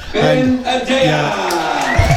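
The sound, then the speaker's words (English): Cheering and whooping from a football crowd at Wildbush after a goal in a Mayo soccer match. Loud and continuous, with raised voices throughout. “A big cheer and the drums going here in Wildbush.”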